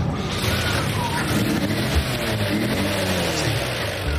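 A somewhat finicky truck engine pulling away: a loud, steady roar and rumble that fills the whole stretch without letup.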